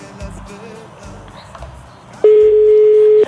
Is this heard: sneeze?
no